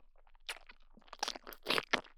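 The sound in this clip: Crunchy food being chewed: many quiet, irregular crunching bites in close succession that grow somewhat louder toward the end.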